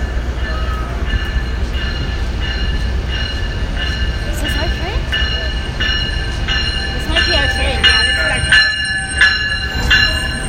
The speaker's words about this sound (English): I think our train's coming. I hear a train